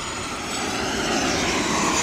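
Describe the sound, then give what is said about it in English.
A Turkish Air Force military reconnaissance or communications plane flies overhead, producing a dense, steady engine roar that swells slightly louder toward the end, with no voices. “It's a Turkish Air Force, some kind of aerial reconnaissance or communications plane.”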